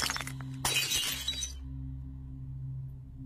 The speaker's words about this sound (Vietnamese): Bát cơm rơi xuống đất, vỡ tan tành.